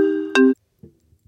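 A phone ringtone sounds in a short two-note tonal burst, the second note lower and louder, then cuts off to near silence with a few faint knocks.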